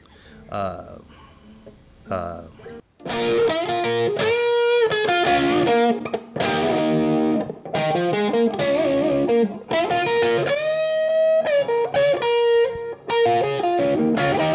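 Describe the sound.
An electric guitar played through a boost and distortion effect: after a quieter, sparse opening of a few notes, loud, sustained distorted chords and notes ring out continuously, with short gaps between phrases.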